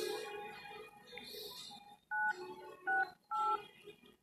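Telephone keypad dialing tones: three short, loud two-pitch beeps in quick succession, following a stretch of quieter background sound.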